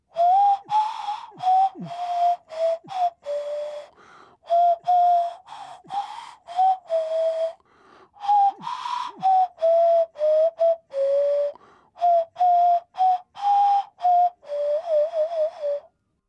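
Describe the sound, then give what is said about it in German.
A nose flute plays the German folk tune Mein Hut, der hat drei Ecken, a pure, breathy whistle-like tone moving through many short notes in phrases with brief pauses between them. “Und von mir gibt's eine Version für Nasenflöte.”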